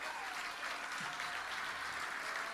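Faint audience applause, a steady patter of many hands clapping that continues evenly throughout.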